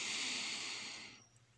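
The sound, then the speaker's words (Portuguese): A deep breath drawn in to begin a guided meditation: a soft, steady, airy hiss that holds for about a second, then tapers off into near silence. “as três respirações profundas para iniciar a meditação. Então, inspira.”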